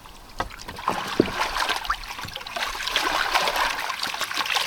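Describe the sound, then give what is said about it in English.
Oars splash and dip in the water of a turtle pond during rowing, a run of irregular wet strokes and trickles over a soft, steady background of moving water. “Gosh, I'm not going very far. This turtle pond is probably not the right place to row.”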